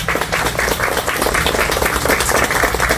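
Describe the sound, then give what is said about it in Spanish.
Audience applause at a community event for a children's project, as a visiting company team is honoured: a loud, continuous clatter of many hands clapping, even in level throughout. “Constellation Brands, al cual le pido un fuerte aplauso, por favor”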